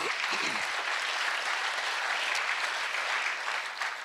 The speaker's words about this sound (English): People across this, you clap for yourselves because